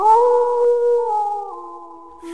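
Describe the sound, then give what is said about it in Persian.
A wolf howls in one long, sustained tonal cry with strong harmonics. The pitch holds steady and steps slightly lower toward the end, with no talk. “ورگ، ورگ یعنی گرگ.”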